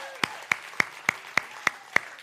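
Clapping welcomes a couple back. Eight crisp claps come at a steady, even rhythm, each a sharp slap, fairly soft overall.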